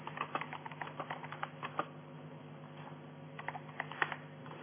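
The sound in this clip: Someone types a message in a text editor on a computer keyboard, producing many faint, quick keystrokes in an irregular rhythm with brief pauses.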